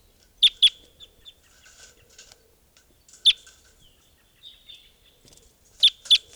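Sharp, high chirping calls from a juvenile bird: five loud chirps in two quick pairs and a single, with fainter chirps scattered between them.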